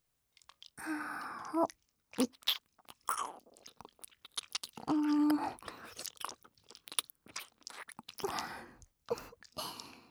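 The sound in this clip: Wet ASMR mouth sounds of nibbling and eating at a left ear: many short smacking, crunchy clicks and slurps in an irregular rhythm, close and fairly soft, with brief quiet gaps between bursts.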